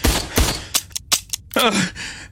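Gunfire sound effect: several sharp, loud cracking shots in quick, irregular succession. Each shot is a short, abrupt burst.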